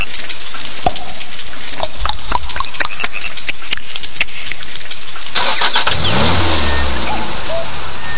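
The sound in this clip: A car engine starts: a run of sharp, scattered clicks, then the starter cranks and the engine catches into a loud, low, steady running note.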